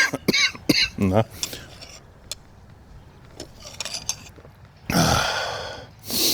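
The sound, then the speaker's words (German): A coughing fit from a sick person whose doctors suspected pneumonia: a cluster of rough coughs, a quieter stretch, then loud, harsh coughing bursts near the end. “Na, die Husterei geht gerade wieder los.”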